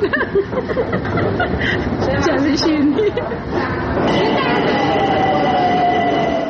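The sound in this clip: A Tehran metro train rumbles loudly and steadily, with people talking and chattering over it and a sustained whine in the second half.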